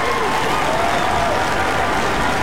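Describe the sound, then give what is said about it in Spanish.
Audience applause for a first-place caller, a dense, even wash of clapping that stays loud and unbroken from start to finish. “Este aplauso es para ti, disfrútalo por ser el primer lugar.”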